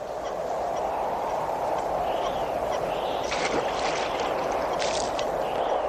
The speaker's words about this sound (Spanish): De pronto, aparece un joven que se estaba bañando dentro del depósito de agua.